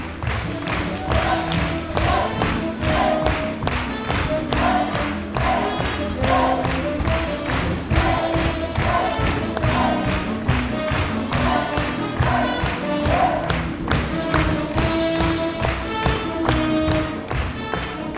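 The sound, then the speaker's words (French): Ambience under the big top of Cirque Monty during the finale: steady rhythmic thumps and clapping with crowd cheering, a continuous, lively din that holds for the whole span. “On entend ce qui se passe dans l'ambiance sous le chapiteau du Cirque Monty.”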